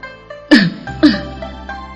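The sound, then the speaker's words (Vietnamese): A dry cough, given once in the story, sounds here as two short, sharp throat bursts about half a second apart, each fading quickly, over a soft, steady tonal background. “ho khan một tiếng”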